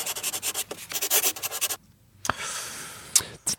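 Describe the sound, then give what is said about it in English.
Pen scratching as someone writes something down, a run of quick rasping strokes, a brief pause, then more scratching broken by a few sharper ticks. “I'm just writing something down.”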